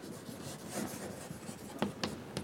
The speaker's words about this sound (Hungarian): Most egy kicsit torzítva rajzolom azért.